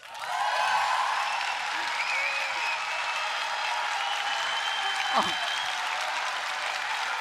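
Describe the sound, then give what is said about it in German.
An audience applauds and cheers for the first speaker of the day on a stage: steady, full clapping holds at an even level throughout, with a few voices calling out above it. “ihr könnt mit den Händen in die Hände klatschen, ihr könnt auch eure Köpfe gegeneinander, das ist mir egal, irgendwie alles, was Lärm macht, macht es bitte für die erste Speakerin des heutigen Tages”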